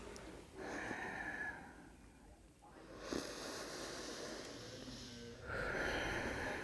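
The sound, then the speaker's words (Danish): Slow, deep breathing in and out through the nose during a yoga exercise, with a few soft, airy inhales and exhales; the breaths are faint and hissing, separated by quieter gaps. “Ind og ud igennem næsen.”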